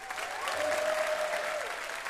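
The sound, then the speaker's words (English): Audience applause for a guest on a game show: steady, even crowd clapping that is fairly faint and continues throughout without a break. “A round of applause for Piper Kerman.”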